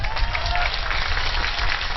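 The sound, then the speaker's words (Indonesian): Audience clapping at a talk: a dense wash of many hands clapping continuously at an even, fairly loud level, with some crowd noise mixed in. “Urung-urung kok tepuk tangan.”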